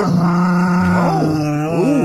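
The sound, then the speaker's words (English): A dog growls and groans in a low, drawn-out voice, its tone wavering up and down over about two seconds, with no distinct barks standing out. “Ladies and gentlemen, it's Finley the dog.”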